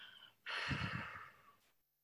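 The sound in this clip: A single deep breath, soft and airy, swelling suddenly and then tapering away over about a second, with no talk around it.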